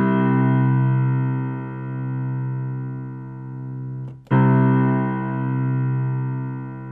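A sustained musical tone on the note Do, rich in harmonics, holds steady at an even level for about seven seconds, broken only by a brief dropout partway through.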